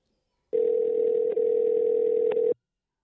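A phone rings out on a call to a cast member: a single steady electronic ring tone lasting about two seconds, clear and alone.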